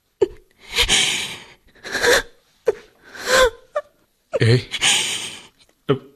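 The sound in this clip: A woman crying in a run of sobbing bursts with gasping, whimpering breaths between them, broken by short silences and rising to a louder, wailing sob near the middle.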